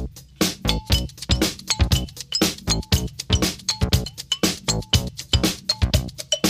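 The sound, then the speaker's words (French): A soda bottle is used as studio percussion in a disco-funk groove. It is tapped in a fast, steady rhythm of many sharp clinking hits, broken by short hooting tones blown into the bottle. “Les percussions, il est fait là en tapant sur une bouteille de soda qu'il a apportée dans le studio. il souffle dedans aussi”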